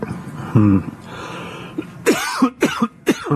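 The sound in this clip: Coughing fit after something went down the wrong pipe: a short throat sound comes first, then a few harsh, sharp coughs in quick succession near the end, loud and alone without talk.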